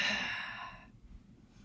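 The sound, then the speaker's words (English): A deep breath let out fully and noisily, a long breathy sigh of rushing air that lasts just under a second and then drops away to near silence. “Take a deep, deep, deep breath and exhale fully and noisily.”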